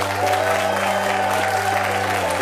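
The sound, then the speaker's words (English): Audience applause at a live music show in Winston-Salem: a dense, steady wash of many hands clapping that stays evenly loud from start to finish. “Let's give her a big Winston-Salem round of applause.”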